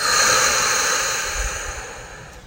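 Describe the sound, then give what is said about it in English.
A big breath taken in and out, as a shared pause before a poetry reading: one long, airy, steady breath hiss that fades slightly, with no talk. “So let's take a big breath together and drop in.”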